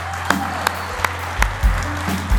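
Audience applause for Team Challenge at a church worship gathering, steady clapping over a low electrical hum, punctuated by a few sharp knocks.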